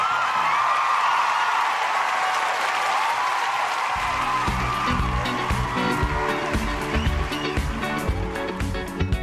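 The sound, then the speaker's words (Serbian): Audience applause for a researcher after her talk: dense clapping bursts in after a few seconds of quieter sound and continues steadily to the end. “a molim jedan aplauz za Vanju Uroševski koja je trenutno na balkonu 202.”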